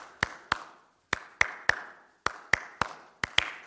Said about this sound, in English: So like if I were to clap a rhythm for you, so like,